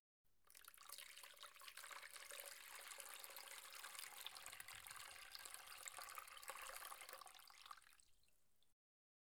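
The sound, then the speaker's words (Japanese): Running water rinses shampoo out of hair after washing. It makes a soft, steady, continuous hiss for about eight seconds, then stops abruptly. “じゃあ、一度洗い流しちゃうね。”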